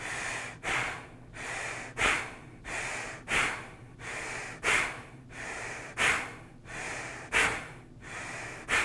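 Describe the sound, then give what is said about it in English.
Forceful nasal bellows breathing in the Bhastrika technique, with air driven fully in and fully out through the nose. Many loud, sharp breaths repeat in a steady rhythm about every second and a half, with softer breath noise between them and no talk. “that's just a bit bellows breath where it's all the way in like a bellows and all the way out like a bellows through the nose. It looks something like this.”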